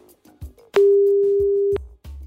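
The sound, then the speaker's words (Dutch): A telephone dial tone sounds while a call is placed to a water board: a single steady, clean tone of about one second, clipped on and off by clicks, with a few soft thumps around it. “Nou, daar moeten we even over gaan bellen.”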